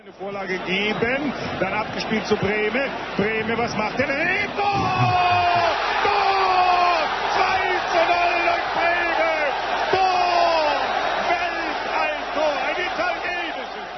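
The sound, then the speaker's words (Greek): A football match crowd in a stadium keeps up a loud, continuous roar of chanting and singing voices, with whoops and yells rising over the sustained mass of sound. “Φυσικά ακούσατε αμέσως ότι πρόκειται για ποδοσφαιρικό αγώνα σε κάποιο στάδιο.”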